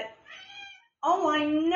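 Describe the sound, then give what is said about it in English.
A cat meows twice in close succession. The first call is quieter and the second is loud, long and tonal, with a bending pitch. “I know, kitty. In case you didn't hear that, Major Buttons just had something to say about that too.”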